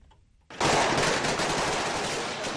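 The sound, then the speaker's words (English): Rapid automatic gunfire from Somali security forces fighting al-Shabaab militants in Mogadishu at night: loud, dense bursts of many shots that erupt suddenly and continue without pause to the end. “It's the sound of Somali security forces fighting al-Shabaab militants in Mogadishu Thursday night.”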